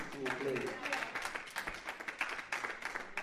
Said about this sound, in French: J'aimerais qu'on acclame.